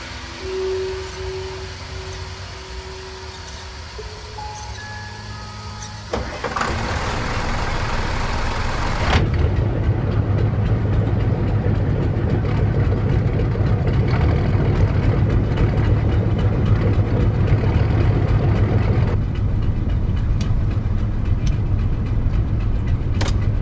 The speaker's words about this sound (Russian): Снова вернулся к работе над мотором. Из него пошел пар. Датчики заработали. Из трубы пошел черный дым.